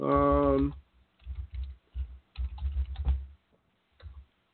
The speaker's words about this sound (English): Let me see. I'll type it in here.